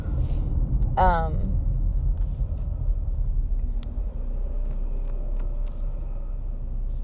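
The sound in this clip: Low, steady engine rumble of a car idling at a red light, continuous and even throughout with no revving.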